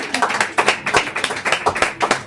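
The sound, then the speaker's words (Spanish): Applause of quick, sharp claps in a steady, brisk rhythm, many claps in a row at even loudness. “¡Un aplauso! ¡Qué maravilla!”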